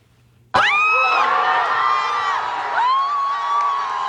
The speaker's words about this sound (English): This is the sound of fans celebrating on Granville Street as Canada scored a goal against South Africa this past Sunday.